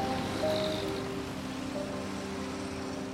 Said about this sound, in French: c'est la mer C'était la première fois que je voyais la mer. Je me sentis étourdi Par la lumière, par le bruit.